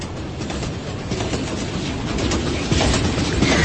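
Steady rumble and rattle inside a moving passenger train on a trip to Bandung, a continuous broad noise that grows slightly louder toward the end.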